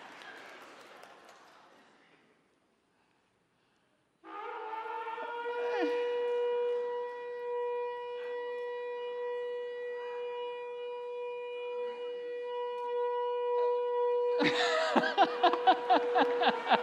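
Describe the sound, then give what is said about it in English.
A shofar sounds one long, steady, brassy note lasting about ten seconds, rich in overtones and loud, after a short stretch of talk and a pause. A burst of crowd noise breaks in as the note ends. “Would you all like to hear what a shofar sounds like?”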